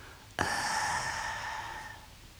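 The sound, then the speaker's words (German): A man groans and breathes out steam after drinking tea through a sugar cube held in his mouth: one abrupt voiced exhale-groan that holds steady and then fades away over about a second and a half. “Er trinkt Tee, den er durch ein Stück Würfelzucker im Mund zieht. Er atmet Dampf aus und stöhnt.”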